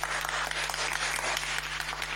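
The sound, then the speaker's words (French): Audience applause follows a host's call for the crowd to applaud themselves, a dense, steady patter of many hands clapping throughout at moderate level, with a low steady hum beneath. “Applaudissez-vous.”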